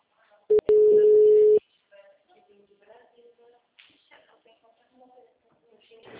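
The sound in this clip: A phone line rings while a call is being placed: a few sharp clicks, then a single steady ring tone lasting about a second. Quieter talk follows afterward.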